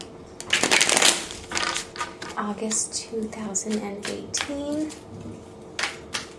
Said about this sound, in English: More shuffles here.